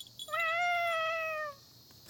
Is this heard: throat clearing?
no